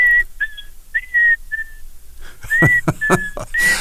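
Whistling of a tune by a man on stage before a concert crowd: a series of clear, steady high notes, with sharp loud bursts of noise joining in during the second half.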